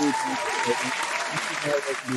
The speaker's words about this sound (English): I couldn't hear you over the clapping.